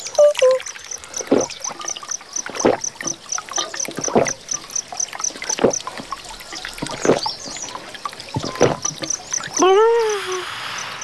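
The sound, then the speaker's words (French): Water fountains splashing: intermittent splashes and trickles of water, some sharp and some softer, at moderate loudness with no clear rhythm. “Je savais bien que tu ne serais pas loin des fontaines d'eau.”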